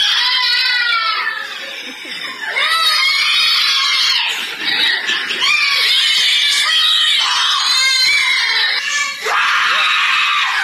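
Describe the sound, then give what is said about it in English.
Young children screaming and crying at a daycare center: loud, shrill, overlapping shrieks and wails that carry on almost without pause, rising and breaking in ragged high-pitched bursts. “That is some children from the Little Blessings Child Care and Daycare Center in Mississippi.”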